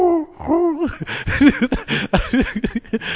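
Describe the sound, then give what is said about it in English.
A human voice imitates an owl hooting, giving a few short, rounded hoots that rise and fall in pitch. Busier, choppy vocal sounds follow, resembling laughter or chatter. “one of my favorite bird sound is the owl, like, or,”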